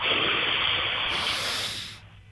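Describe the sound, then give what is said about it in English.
A slow, deep breath taken during a stretching exercise with hands on the head, heard as one long, steady airy hiss that cuts off near the end, with no talking. “So we just put our hands on our heads and we'll just take a nice deep breath in slowly, like this.”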